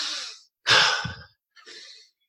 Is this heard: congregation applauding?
no